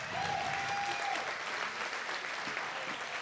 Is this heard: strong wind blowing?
no